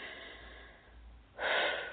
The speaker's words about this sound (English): I sometimes do some deep breathing when we're moving some big stuff.